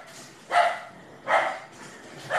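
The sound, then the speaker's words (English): A dog barks repeatedly throughout the day: three moderately loud barks spaced evenly about a second apart over a low background hum. “Do you hear the dog? That is one thing I will not miss with this job, is that dog barking all day.”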